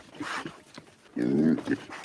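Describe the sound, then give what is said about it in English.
A pig sound effect gives a loud, low, rough grunt in the second half, preceded by softer, brief noises. “A pig? Yeah, there it is.”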